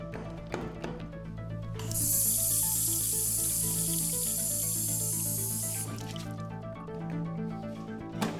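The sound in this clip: A tap spraying water in a bathroom at a Bitcoin conference in Miami gives a steady, bright hiss for about four seconds, over a low tonal hum with faint clicks before and after.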